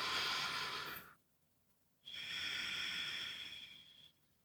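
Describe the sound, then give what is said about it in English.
Deep breathing during a guided breathing exercise: two long, soft, airy breaths, one in and one out, separated by a short, quiet pause. “Exhale, let that out. Last one, nice deep inhale.”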